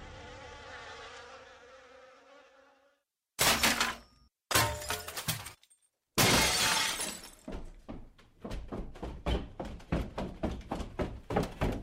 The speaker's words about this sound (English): What was that? What was what? That noise, that smashing noise.